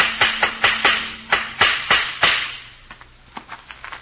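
Hammer blows nailing up a sign outside a house: a steady series of sharp knocks at an even pace, followed by fainter, quicker taps near the end.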